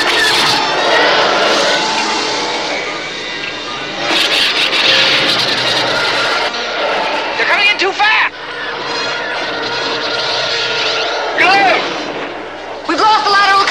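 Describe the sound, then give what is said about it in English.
A sci-fi space battle: a starship roars as it accelerates while attacking fighters fire on it. Several sharp blasts and swooping pitch sweeps cut through a loud continuous engine rumble. “The Falcon accelerates into space, but now Luke and Leia must fight off attacking Imperial fighters. Here they come!”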